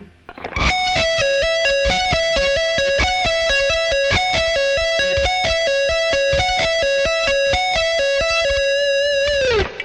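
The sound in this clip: An electric guitar with a distorted tone picks a basic fast pattern at slow speed. Many evenly spaced notes repeat in a steady rhythm, loud and unbroken, ending on a held note that cuts off.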